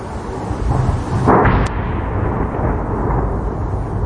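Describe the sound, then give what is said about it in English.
A Russian missile and drone strike over Kyiv rings out as a single loud, sharp blast. It rises out of a low rumbling background near the middle and then decays into a lingering, muffled roar. “the sound of Russian strikes on the Ukrainian capital, Kyiv, one that's been all too familiar in the last 4 years”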